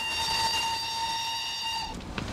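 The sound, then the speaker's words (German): A steam-era train whistle at Munich railway station around 1870: one loud, steady, reedy blast rich in overtones holds for about two seconds, then cuts off into a low rumble. “Und wir stellen uns auf den Bahnhof München. Und zwar ungefähr im Jahr 1870.”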